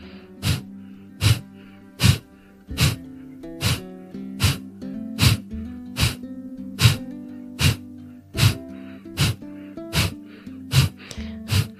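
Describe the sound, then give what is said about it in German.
A person does Kapalabhati breathing, pushing rapid forceful breaths out through the nose. Sharp snorting puffs come in a steady, even rhythm, many in a row, over soft background music. “Einfach durch die Nase konstant ausschnauben.”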